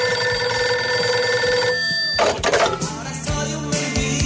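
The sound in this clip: A telephone rings on an outgoing call placed from a radio station, a steady tonal ring lasting nearly two seconds, followed by a burst of noisier clattering sound.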